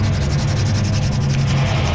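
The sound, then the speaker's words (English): Graphite pencil rubbing on tracing paper laid over an engraved metal fireplace scene, a steady, continuous scratchy friction that holds at an even level from start to finish without pauses. “I'm holding my tracing paper over this beautiful scene of the Edmonton Hotel around the old fireplace that's engraved in metal here, and I'm using my little graphite pencil to do a little rubbing.”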